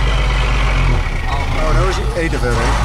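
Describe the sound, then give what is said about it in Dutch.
A truck driving on the road in a truck convoy: a loud, steady low engine rumble throughout, with a person talking over it. “Wij van Radio NL rijden ook achter deze truc aan. Dan kun je af en toe even zien, wordt er geschakeld”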